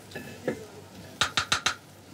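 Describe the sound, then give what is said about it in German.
A disposable clay cooking pot is smashed open before the meal is served. Four sharp, loud cracking knocks come in quick succession, preceded by two fainter taps. “Vor dem Essen wird der Tontopf kaputt gemacht.”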